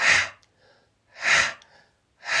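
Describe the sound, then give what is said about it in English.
Forceful breathwork panting, done with the tongue out and the belly pulling in: three strong, breathy exhale bursts at an even rhythm, with softer airy inhales between them. “So that is breath of fire.”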